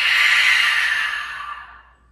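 A long breath during a therapeutic Lu Jong yoga session for the spine: one steady, airy rush of breath that gradually fades away, with no voices.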